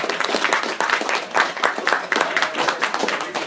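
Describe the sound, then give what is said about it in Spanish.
Audience applause at the close of a talk at a comics event, with dense, loud clapping that keeps an even pace for a few seconds. “Un fuerte aplauso para todos ustedes por acompañarnos.”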